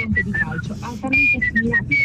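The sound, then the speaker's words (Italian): Someone whistles a tune in short, clear, high notes, one short phrase and then another, with a low murmur of voices underneath. “io ho due tipi di fischio, il primo è... Se devo fischiettare una canzone”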